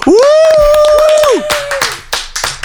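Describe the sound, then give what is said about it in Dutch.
Hand clapping to congratulate a winner, a short burst of claps after a long, steady vocal whoop that holds one pitch and then trails off. “Maar goed, Menno, je hebt gewonnen. Ja, lekker. Yes. Oh ja, misschien even applaudisseren.”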